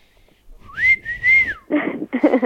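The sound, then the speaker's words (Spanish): A person whistles one long, clear, high note that bends upward at the start, holds steady, and drops away at the end. Two short, noisy bursts follow it. “Muy bien, silbando.”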